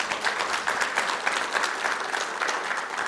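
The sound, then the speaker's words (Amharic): Audience applause at a sermon: an even patter of many hands clapping steadily for about three seconds without a break, moderately loud and with no voices on top. “የመጨረሻውንም ሰባተኛውንም እና በታማኝነት አገልግሎትን ስለሰጠን ለቴዲ አንድ ጊዜ አጨብጭቡልኝ።”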